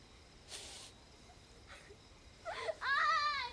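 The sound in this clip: A girl crying at a cemetery among iron crosses and fences: faint hiss and a couple of soft breathy sounds, then a brief, wavering, high-pitched sobbing wail near the end.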